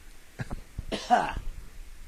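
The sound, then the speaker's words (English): Throat clearing, a couple of short rough catches followed by a longer harsh, raspy burst, brief and fairly quiet. “I just got the wah-wah thing in the back of my throat.”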